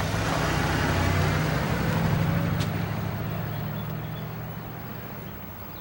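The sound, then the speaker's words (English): A taxi drives away with a steady rumble of engine and road noise. The broad, continuous sound slowly grows fainter toward the end. “He climbs into the taxi. He touches her hand as the taxi drives away.”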